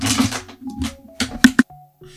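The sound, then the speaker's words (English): Keyboard typing: a few sharp clacks and short bursts of keystrokes, loudest near the end, over faint sustained tones. “Give me a second. I'm going to type it out then.”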